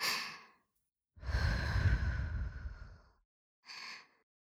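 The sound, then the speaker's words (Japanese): Close breathing right at the microphone: three soft, airy breaths, a short exhale, then a long, drawn-out sigh, then a brief final breath, each separated by silence and quiet overall. “息がかかる距離まで顔が近づいちゃった。どうかな、私の息遣い感じてる？”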